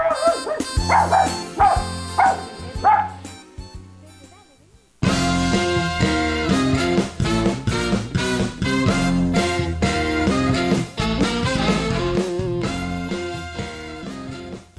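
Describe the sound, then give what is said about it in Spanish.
A children's radio program's bumper jingle opens with a few rhythmic dog barks over soft music, then pauses briefly before a loud, full burst of bright music that runs to the end. “perdón por dejar ese espacio libre sin hablar, pero estábamos poniendo la cortinilla”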